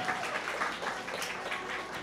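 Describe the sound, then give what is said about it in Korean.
A church audience gives soft applause as a blessing during a greeting at a Christmas service. The clapping is faint and steady, with no break. “인사할 때 큰 축복의 박수로 함께해 주셨으면 좋겠습니다.”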